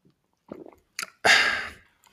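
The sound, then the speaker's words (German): Someone takes a sip of a drink, heard as a few soft, short mouth sounds followed by a louder, breathy half-second rush of air, with no talking. “Jetzt trinke ich mal kurz einen Schluck.”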